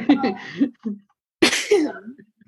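A person sneezes once, a loud, breathy burst arriving after a few short voiced sounds and trailing off into brief voiced noises.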